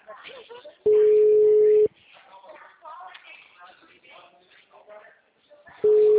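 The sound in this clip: Ringback tone from an outgoing call on a mobile phone: a steady, loud, single-pitched beep lasts about a second, people talk during the pause, and then the tone starts again.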